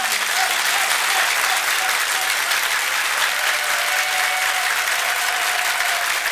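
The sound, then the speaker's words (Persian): An audience claps along, a dense, steady wash of hand claps lasting about six seconds, with a faint sustained voice underneath. “کف بزن دیگه”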